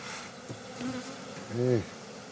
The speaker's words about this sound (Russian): Окуривай. Джельсамина помогает отцу обработать улья.